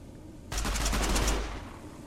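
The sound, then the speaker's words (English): Rapid automatic gunfire in a video game is aimed at the player. Many quick, sharp shots form one burst of under a second, loud and alone, then trail off. “Something's shooting at me.”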